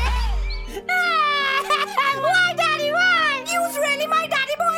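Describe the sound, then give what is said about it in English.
A child crying, sad and angry: loud, high wailing cries with a wavering, bending pitch that carry on almost without a break for about five seconds. “That's the sound of your child, sad, angry”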